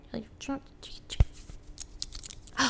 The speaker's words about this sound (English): I tried mimicking a key sound, but you know, just like the ching ching, like,